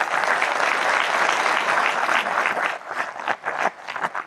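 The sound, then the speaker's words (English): An auditorium audience applauds the institute, a dense, steady wash of clapping that thins into scattered individual claps toward the end. “By the way, you know, round of applause for the institute, the progress they have made.”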